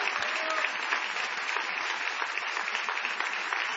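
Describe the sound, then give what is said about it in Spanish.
An audience in a theatre applauds: a steady, dense wash of clapping at an even, fairly loud level throughout. “Vamos a aprovechar el envión de este aplauso inicial para ovacionar a Patricio Barton.”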